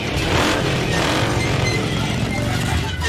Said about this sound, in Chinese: 踩三下油门，